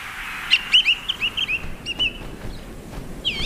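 A male bird's loud territorial call: a run of short, high-pitched chirped notes in an irregular rhythm, standing out clearly over a faint background hiss.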